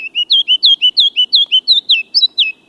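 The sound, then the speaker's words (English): Kinglet song on an April morning in the lowlands: a long, rapid series of high, thin chirping notes in an even rhythm, ending in a few higher warbled notes, with no voices. “The kinglets' brilliant songs light up many an April morning in the lowlands”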